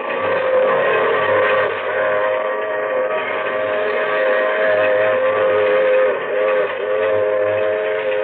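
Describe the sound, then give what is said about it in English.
A freight train with boxcars rolls on the rails, giving off a loud, continuous, steady rumble with sustained droning tones and no distinct separate beats. “with Hemlock in a boxcar and the wheels keep pounding underneath”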